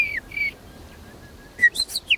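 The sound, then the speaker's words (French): A nightingale sings a few short, clear whistled notes, a thin sustained tone between them, then a quick burst of bright, high chirps at the end. “Il est bon aussi le rossignol qui chante derrière. Il chante bien.”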